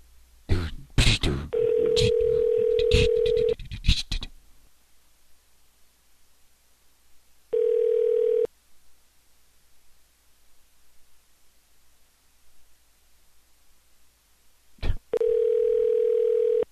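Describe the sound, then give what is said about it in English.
Telephone dial tone plays while a call is being transferred, with three steady, unbroken tone stretches separated by quiet line hiss. Crackling clicks and static come before the first tone and return briefly before the last. “World's longest transfer. Their phone is, like, really messed up right now.”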